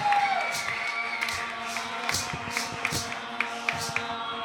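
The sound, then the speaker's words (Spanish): Audience cheering and applause after a rock song at a live show, a mix of crowd noise with scattered whoops and a few sharp claps that pop out over a steady roar. “Otro aplauso, por favor, les pedimos.”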